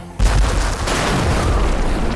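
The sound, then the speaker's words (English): A revolver gunshot booms in with a sudden onset and rolls into a sustained, loud rumbling roar that carries on to the end, with no talk. “The first shot thundered through the largest concentration of the creatures, blowing them to rotted smithereens, blasting body parts into the darkness beyond.”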